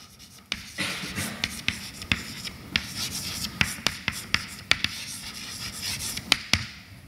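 Writing on a board during a maths lecture on von Neumann algebras gives many sharp taps and short scratchy strokes in an irregular rhythm, fairly loud against a quiet background.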